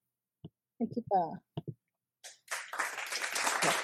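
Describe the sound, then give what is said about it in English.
A clapping sound effect: after a few brief spoken sounds and a short gap, a dense burst of applause-like claps swells in and continues steadily for well over a second. “Listen, I made these claps. They're going to happen.”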